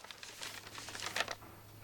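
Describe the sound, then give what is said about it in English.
Brown paper envelopes are opened in a bakery, giving faint, dry crinkling and tearing rustles. Many small irregular bursts of paper noise follow one another. “she opens another pile of brown envelopes and sits down thoughtfully as she reads a letter”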